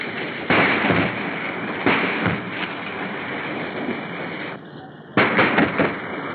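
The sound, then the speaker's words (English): Korean War artillery fires at targets: several heavy, abrupt booms break over a constant, rough rumble in an old, muffled recording. “Our patrols were busy probing enemy lines, and our artillery blasted some targets.”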